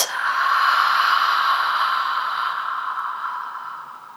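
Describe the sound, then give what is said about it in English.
A deep breath is let out in one long, steady, airy rush during a guided breathing exercise. It starts strongly and fades slowly over several seconds, with no voice over it. “Take a big breath in through your nose. And then exhale it out.”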